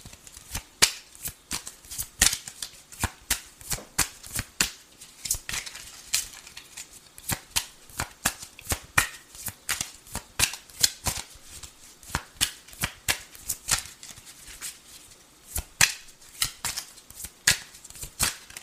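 Tarot cards being shuffled and drawn, with many rapid, crisp riffling snaps and flicks in an irregular run of sharp, bright clicks throughout.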